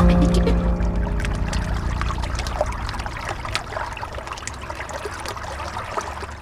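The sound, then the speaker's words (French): The Loire flows past Rochecorbon, upstream of Tours, on a frosty winter day, a steady rushing of water dotted with small trickles and splashes, fading slightly as it goes on. “Au moment où on enregistre cette émission, où on se retrouve au Pélio, donc à Rochecorbon, en amont de la ville de Tours, sur la Loire.”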